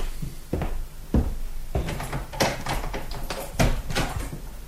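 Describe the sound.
A door opened late at night for a visitor: a few dull knocks and clunks of the door over a constant hiss, followed by brief rattling and shuffling.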